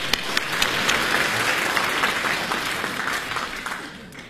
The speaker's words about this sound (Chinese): 再来点掌声。